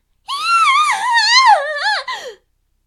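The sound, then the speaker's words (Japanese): A woman screams in pain from a light burn, one sustained, loud, high cry of about two seconds whose pitch wavers and finally drops away. “と大声で悲鳴を上げるのだった。軽いやけどではあったが、瞬間的な痛みは相当なものであった。”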